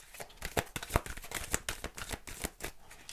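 A deck of tarot cards being shuffled and handled gives many quick, papery riffling snaps and flicks in an uneven rhythm, fairly faint, with no talking.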